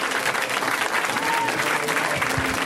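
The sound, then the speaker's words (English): An audience applauds a comedian: dense, steady clapping from a crowd that holds at an even level throughout. “Let's hear right now from Mr. Matt Ingebretson, guys. Give it up for Matt.”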